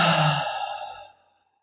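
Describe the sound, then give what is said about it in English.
A single deep breath released as a long, audible exhale during a breathing exercise, starting loud and breathy, then fading away to silence. “Take a deep breath in and a deep breath out.”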